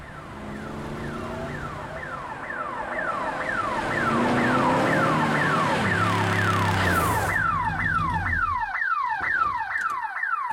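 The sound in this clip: A car alarm going off: loud, steady cycles of rapid falling electronic chirps that repeat in a loop, switching to a different siren pattern partway through, with no talk.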